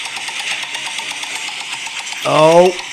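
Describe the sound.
A prize wheel spun for a game of picking holiday movie plot lines gives a rapid, steady run of ratchet clicks over a humming drone, and a voice cuts in briefly near the end.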